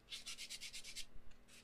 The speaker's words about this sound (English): and I'm sorry, y'all, if you can hear noise in the background, I'm sitting here fixing my nail.